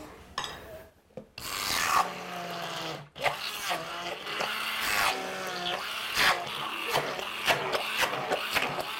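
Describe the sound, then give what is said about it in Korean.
A hand blender grinds a block of soft food with 50 cc of soy milk in a bowl, running loud and rasping. It cuts out briefly twice early on, and its whirring pitch shifts as it churns. “이거를 핸드 블렌더로 이제 갈면 돼요. 자, 이거 소리가 좀 시끄러울 겁니다.”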